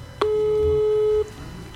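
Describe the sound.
A single steady telephone ringing tone while a number is being called, lasting about a second, mid-pitched and clear over a low background hum, with no talk.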